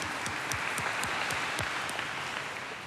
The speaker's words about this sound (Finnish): Isot aplodit teille.